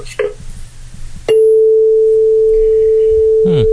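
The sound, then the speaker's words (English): A 440 tuning fork rings with a pure, loud, steady tone that starts abruptly and holds without fading. A voice is heard briefly before it and again near the end. “I'll show you a tuning fork.”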